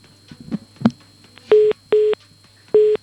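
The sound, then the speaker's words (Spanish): A phone busy tone follows a dropped call: three loud, mid-pitched beeps come after a few faint clicks and small noises, with a low steady hum underneath. “Hemos perdido a Xavi. Se ha me temo que se ha cortado la llamada.”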